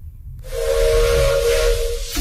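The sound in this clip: A train's steam whistle blows one loud, sustained note at a steady pitch over a bed of hissing steam, starting about half a second in and holding to the end.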